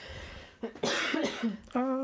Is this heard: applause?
no